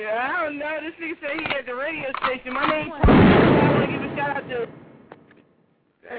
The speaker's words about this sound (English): That was a loud ass gun.